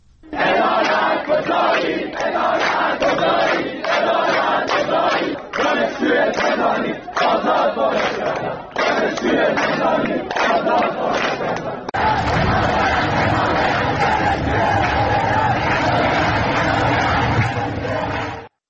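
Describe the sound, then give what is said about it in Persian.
Students at a protest gathering at Shahid Rajaee Teacher Training University in Tehran chant political slogans in loud rhythmic unison. Two separate recordings follow one after the other, the second fuller and denser. “در دانشگاه تربیت معلم رجایی تهران هم دانشجویان شعار عدالت کجایی دادند. به چند صدای تجمع دانشجویان هم با هم گوش کنیم.”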